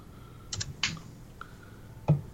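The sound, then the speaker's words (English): Keyboard typing comes as a few sparse, faint keystroke clicks separated by short pauses, with one sharper tap near the end over a quiet background hiss. “typing away”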